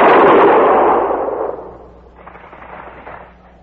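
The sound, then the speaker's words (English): A gun fired on command: one loud, sharp blast that trails off into a long rumbling decay lasting over a second, then a fainter rumble lingering afterward. “Prepare to fire! Ready? Fire!”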